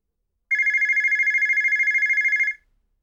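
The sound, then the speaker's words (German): A mobile phone rings with one continuous electronic trill, a rapidly pulsing high tone that lasts about two seconds and then cuts off, with no voices. “Ein Telefon klingelt.”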